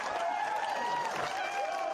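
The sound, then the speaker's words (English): Crowd cheering, a dense and sustained roar of many voices that stays at a steady level throughout. “Big cheers from the crowd there.”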